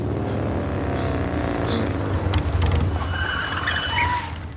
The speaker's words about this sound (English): The bikes pull up around the corner.